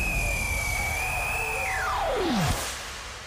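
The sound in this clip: Aircraft takeoff sound effect in a soccer radio station jingle: a steady jet whine holds its pitch, then swoops sharply downward and gives way to a fading rush of engine noise.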